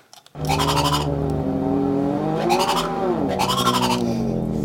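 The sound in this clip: Synthesized car tire skid from a stick-slip model in a simple game demo when accelerating too quickly: a loud, continuous, buzzy harmonic squeal whose pitch wavers and bends, with bright gritty bursts, heard alone after a few faint clicks.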